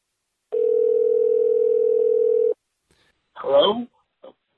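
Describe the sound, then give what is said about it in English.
Telephone ringback tone while an outgoing call is dialed: a single steady mid-pitched ring lasting about two seconds, then silence and a brief voice. “Let's dial him up. Okay, please pick up.”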